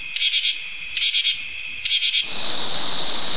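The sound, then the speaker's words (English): Katydid calling: three raspy, rapidly pulsed bursts of high-pitched chirping, each about half a second long with brief gaps between them, followed by a steady loud high buzz, with no voices. “This is the sound of a katydid.”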